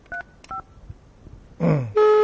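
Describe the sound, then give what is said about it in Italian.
A telephone number is dialed on a touch-tone phone: two short beeps, then a brief noisy burst, followed by a loud, steady tone that holds to the end. “Io richiamo, vediamo, tanto lei risponde, è lì per rispondere, è il suo lavoro, deve rispondere, Eolie Inn.”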